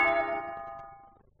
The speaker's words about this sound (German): Es hat geklingelt, aber sie wacht nicht auf.